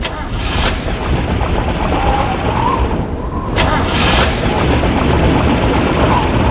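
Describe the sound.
An engine is started in freezing, snowy weather, a loud continuous rumbling roar broken by a couple of sharp bursts as it turns over and runs.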